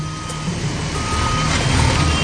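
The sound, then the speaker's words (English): A bulldozer backs up while clearing a road, its reversing alarm repeating steady high beeps over a continuous low engine rumble that grows slightly louder toward the end. “The bulldozer's backing up and pushing stuff off to the side.”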